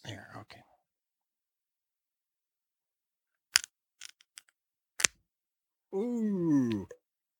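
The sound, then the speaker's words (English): Sharp, brief clicks come from fingertips picking at the sealed pull tab on the lid of a crowler can, several scattered taps in near silence, with a person speaking before and after. “I cut my nails earlier, and now I have no nails to open this damn tab. It is, like, sealed up against the lid.”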